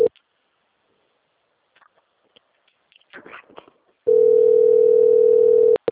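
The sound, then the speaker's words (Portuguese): A telephone dialing tone sounds as one steady, loud, unbroken pitch for nearly two seconds and then cuts off abruptly. Before it come a few faint clicks and light handling noises in near-silence. “tem uma ligação importante. Não é de Madrid, mas é importante.”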